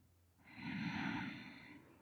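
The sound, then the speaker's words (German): A single slow, deep breath in during a guided breathing exercise, soft and unhurried, swelling gradually and easing off over about a second and a half with nothing else heard. “Atme einfach mal tief ein. Und aus. Ein.”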